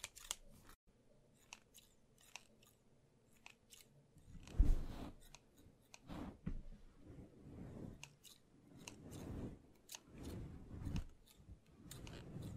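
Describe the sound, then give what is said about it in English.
Scissors snip through beard hair in a trimming session. The quiet, crisp cuts come in an irregular rhythm, some in quick clusters, others spaced apart, with no talking. “So, let's start cutting these hairs, okay?”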